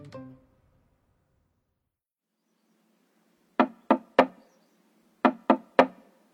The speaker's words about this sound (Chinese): 去敲门，敲了半天，里头的人才姗姗来迟。